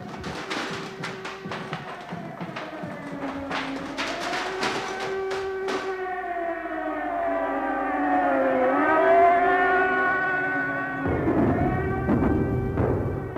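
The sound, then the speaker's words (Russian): An air-raid alarm siren wails continuously for over ten seconds, its layered tones sliding up and down in long sweeps, loud and sustained with no voices. “Тревога. Сирена.”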